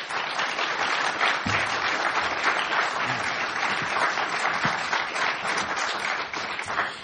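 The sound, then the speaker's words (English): An audience gives a sustained round of applause for the panelists at the close of an evening panel discussion, with dense, even clapping and no break. The steady wash lasts about seven seconds with no voices over it. “let's give a big hand to the panelists for their thoughts here tonight.”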